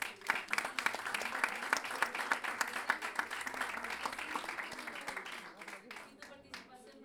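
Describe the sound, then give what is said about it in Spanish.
An audience claps for a performer at an evening show in a small, packed venue. The applause is dense and steady throughout, thinning slightly toward the end. “gracias también a Luis Órdenes, un aplauso para...”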